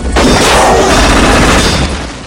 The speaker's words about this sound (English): Chance hits a hunter with a shotgun blast.